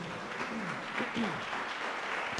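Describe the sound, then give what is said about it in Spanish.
A church audience gives a round of applause, a fairly quiet, steady patter of clapping with voices mixed in. “¿Cuánto le damos ese fuerte aplauso”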